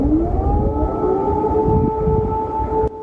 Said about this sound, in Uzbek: Kiyevda yana havo sirenalari.